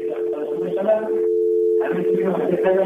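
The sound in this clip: A telephone line tone sounds after a caller to a radio call-in show hangs up: one constant, mid-pitched tone running throughout. Talk layers over it before and after a brief pause where the tone sounds alone.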